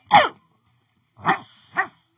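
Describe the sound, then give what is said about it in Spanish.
Three sharp dog barks, one strong yelp followed after a pause by two quicker, slightly shorter barks, each loud and clear with nothing else around them. “Este perro estaba como raro, ¿verdad? Raro. Sí, estuvo raro. Creo que le están pisando la pata.”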